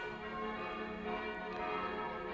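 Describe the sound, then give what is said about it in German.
Cathedral bells of Brixen ringing, with clappers bouncing to strike twice; a dense, steady wash of overlapping metallic tones and long sustained hum, moderately loud and without talk. “Teilweise auch so, dass die Klöppel doppelt anschlagen, also Prellschläge verursachen. Das ist dann in unseren Ohren vielleicht nicht mehr ganz so schön, aber wir können ja mal reinhören. Und zwar das Brixener Domgeläut.”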